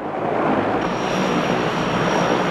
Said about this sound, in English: The plane taxis through thick fog.